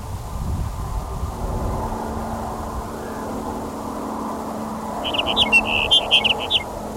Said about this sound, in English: Truck noise on Highway 6.